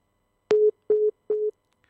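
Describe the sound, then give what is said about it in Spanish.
Busy tone after a dropped phone call: three short, steady, mid-pitched beeps at an even rhythm, each separated by a brief silence, heard alone and clearly. “¿se cortó la llamada? A ver, vamos a ver, vamos a intentarla nuevamente.”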